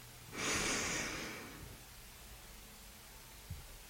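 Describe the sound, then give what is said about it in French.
A person takes one deep breath in during a guided breathing exercise, a single airy, breathy rush that swells for about a second and then fades into quiet hiss. “Inspire.”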